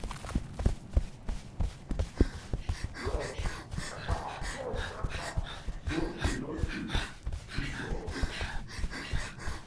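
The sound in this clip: Running footsteps in an audio drama as characters flee back to the breach: many quick, rhythmic thuds at a steady pace, fairly faint and continuous throughout.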